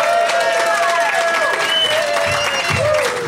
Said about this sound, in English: Give it up, everybody. Please welcome Matt Fernandez, Brittany Brave, and Steve Miller.